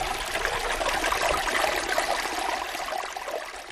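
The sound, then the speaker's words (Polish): A mountain stream in Poland's Gorce National Park trickles and rushes in a steady, fairly loud wash of running water. There are no voices. “To może sobie teraz przykucnijmy i nagramy sobie trochę strumyka, a przy okazji posłuchamy, co się tutaj dzieje.”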